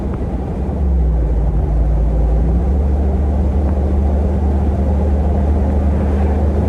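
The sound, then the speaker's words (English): A V8-powered Jeep Wrangler drives at about 60 mph, producing a steady, loud, low engine and road rumble that drones on without a break. No one speaks. “Handles drives just like a regular Wrangler, but it's nice to have so much power under your foot.”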